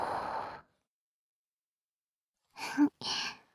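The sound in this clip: Soft breath blown close to the ear in a whispered soothing roleplay: gentle airy puffs, the first at the start and another after a long silent pause, with a brief voiced sound just before it.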